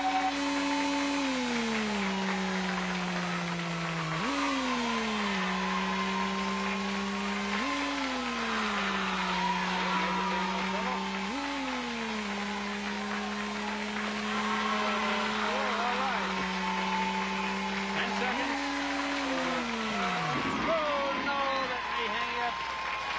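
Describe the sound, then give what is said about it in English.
A synthesized race car engine whines in an arcade racing game on the Fuji track. Its pitch climbs steadily, then drops several times like gear shifts, before falling away near the end. “You get ready. Get set. Drive. The pole qualifier. He picked the Fuji track. Here we go.”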